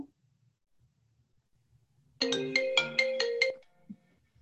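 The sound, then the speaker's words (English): A phone ringtone plays a quick, bright melodic pattern of repeated electronic notes for about a second and a half, loud against an otherwise quiet background. “that's an exciting ringtone.”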